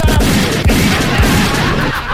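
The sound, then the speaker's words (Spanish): Gunshot sound effects fire in a rapid, dense volley, several sharp bangs overlapping a continuous loud clatter. “Pero ¿cómo, mi amigo, lo están mandando balazos?”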